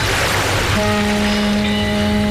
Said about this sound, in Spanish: ¿Seguí soñando con esa escapada al Caribe? El mar te llama.